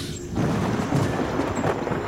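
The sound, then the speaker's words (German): Thunder from an approaching thunderstorm, a deep, broad rumble that swells after a brief quieter start and rolls on steadily and loudly to the end, with no voices. “Das Gewitter ist schon nah.”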